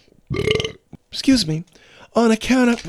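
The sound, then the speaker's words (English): Loud, drawn-out belching comes in three separate voiced bursts, each rough and throaty with a resonant, croaking tone, with short pauses between them. “We can't do this if you're going to keep belching.”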